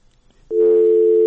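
A telephone line tone sounds after a call is cut off: a brief click, then a loud, steady, unwavering hum holding a single pitch to the end.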